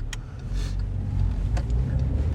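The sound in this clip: Steady car engine and road rumble as the car is driven around aimlessly. A continuous low hum plays alone, with no talk.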